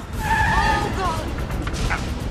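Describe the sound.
Tires squeal as a car is driven away fast. A sharp squeal comes early, then gives way to a rough, noisy roar of the moving car.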